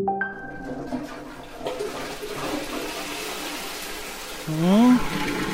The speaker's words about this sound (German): Ja, so kann man es machen, das Pippi einfach wegspülen.